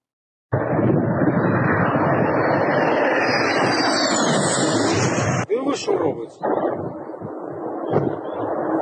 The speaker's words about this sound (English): We're about to see two jets, one crash, the other gets shot down. Ukrainian jets.